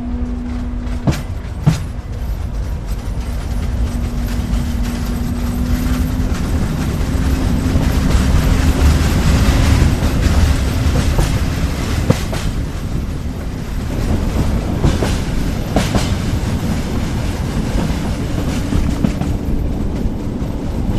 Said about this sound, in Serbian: Sad ćete čuti i prve zvuke. Voza koji se pokreće, što je uvek lepo, i asocira na putovanja. Zahuktava se lokomotiva.